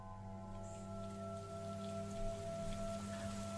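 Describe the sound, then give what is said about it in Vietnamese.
Rain falls steadily at night, a faint continuous hiss on a surface with a low, even droning hum underneath and no voices. “vào giữa trời mưa to gió lớn trong đêm khuya”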